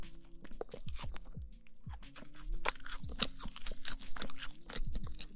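Eating a small cake up close: many crunchy bites and wet chewing noises in an irregular rhythm, mostly quiet with a few sharper crunches, and no speech.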